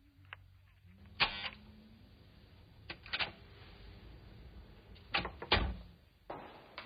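A door being opened for a visitor: a scattered series of faint clicks and clunks from a latch and handle at irregular intervals, with no voices.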